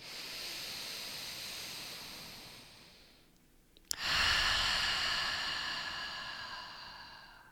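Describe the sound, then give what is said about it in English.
Slow, deep breathing in a guided meditation: two long, airy breaths separated by a short quiet pause. The first breath fades gently, and the second begins with a soft click and sharp onset before tapering off. No one speaks. “Two more like that. Inhale. Exhale. Last one.”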